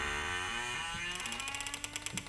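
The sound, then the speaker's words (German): Mechanical grinding of town gates slowly closing: a low, humming drone gives way to a steady run of many ratcheting clicks, like gears and pawls turning. “Die Türen der Stadt schließen sich.”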